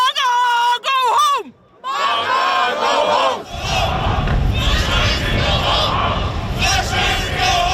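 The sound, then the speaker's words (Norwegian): Around 150 demonstrators in Trondheim shout in protest at passengers from the cruise ship Silver Dawn. A loud, wavering shouted call opens, and after a brief lull a dense, roaring crowd noise rises and holds to the end. “Det her lyd fra Trondheim I går, for der møtte rundt 150 demonstranter opp for å protestere mot en gruppe av passasjerer på cruiseskipet Silver Dawn.”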